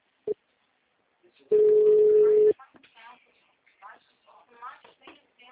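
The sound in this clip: Telephone ringback tone while placing a call: after a brief click comes one steady, level beep lasting about a second, followed by voices talking.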